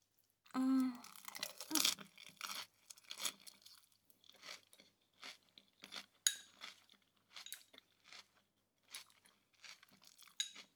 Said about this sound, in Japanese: それじゃ、私もいただきまーす。